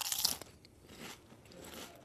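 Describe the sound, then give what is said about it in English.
Crisp crunch of biting into a Lay's reduced salt potato chip: a sharp, loud snap at the start, then quieter, softer chewing crunches. “I started with the plain old Lay's reduced salt chip. Okay, and then tastes like a potato chip. And then sampled a reduced salt chip with crystal salt.”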